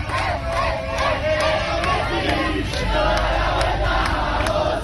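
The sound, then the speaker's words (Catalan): A crowd of Argentina fans on Passeig de Gràcia in Barcelona celebrates a World Cup win, chanting and shouting loudly and continuously in a dense, rhythmic roar of many voices. “I arran d'aquesta victòria de l'Argentina hi ha hagut festa grossa a Barcelona.”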